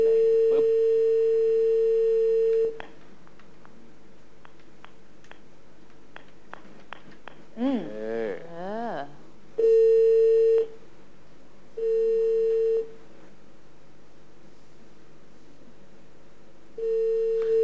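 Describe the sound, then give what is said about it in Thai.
Telephone tones from an outgoing call: a steady mid-pitched dial tone, then short keypad beeps, then a few long ringback tones separated by silences. “กดเบอร์อย่างเดียวได้เลยลูก”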